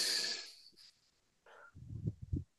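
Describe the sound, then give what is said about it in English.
A deep breath taken during a guided stress-release exercise: a strong airy rush, a short pause, then a rough, puffing exhale broken into a few breathy pulses. “Okay, take a deep breath.”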